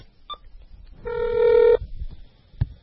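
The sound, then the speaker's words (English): Telephone dialing tones heard over a speakerphone: a brief, faint tone, then a louder steady electronic tone lasting well under a second, and finally a single sharp click. “Okay, we're phoning again. Speakerphone.”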